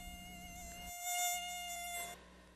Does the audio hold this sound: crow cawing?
no